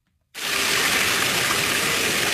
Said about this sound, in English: More than 90,000 gallons of water gushing into the Tawanda Recreation Center pool this Tuesday.